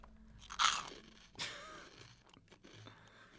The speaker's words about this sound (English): And you've been eating those for about 20 minutes now and you still haven't finished the bag. I know. So I just to fulfill our contractual ASMR. Duties with Baconets, I just have to do this quick little segment.